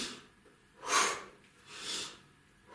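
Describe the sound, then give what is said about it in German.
A person demonstrates staccato breathing with two short, sharp, faint breath bursts separated by quiet pauses. No speech is heard. “manche haben dann so staccato geatmet, das heißt so,”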